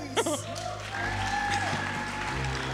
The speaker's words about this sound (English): Big round of applause for Andrew Hansen!